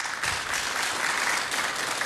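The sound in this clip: Audience applause for a bağlama player, the band's orchestra leader, introduced at a live performance: dense, even clapping that stays at a steady level for the whole two seconds.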